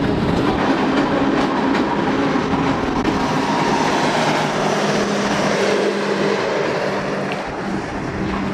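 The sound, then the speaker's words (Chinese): A train on the Qinghai–Tibet railway pulling into Tuotuohe station: a loud, continuous rumble with rattling wheel and carriage noise, holding steady throughout and easing slightly near the end. “列车即将驶入沱沱河站，这里也是距离三江源最近的车站。”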